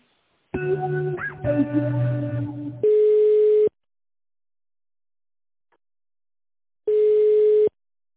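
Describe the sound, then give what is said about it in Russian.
Telephone line tones play while a call is being transferred: a brief melodic jingle, then two long, steady tones separated by several seconds of silence, with no talking. “Одну минуту, на Викторию перевожу вас.”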